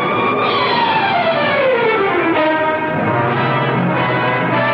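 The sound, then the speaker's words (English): Car chase with a Jeep in pursuit as a car drives across a lawn: a loud, continuous engine roar mixed with high whining tones that slide steadily downward in pitch, with no talking. “With the Jeep in hot pursuit, he drives across a lawn. And onto another road as Johnson fights for the wheel.”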